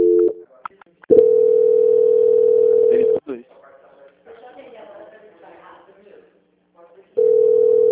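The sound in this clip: A telephone keypad tone sounds as the star key is pressed during a line transfer: a brief two-pitch beep, then long steady tones, with faint murmured voices in the gap before the tone returns.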